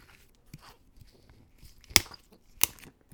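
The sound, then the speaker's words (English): Two sharp, brief cracks as the seal is broken on an unopened bottle of whiskey-based liqueur, the second crack following shortly after the first, with faint rustling in between. “I've got this unopened bottle here. So let's crack the seal.”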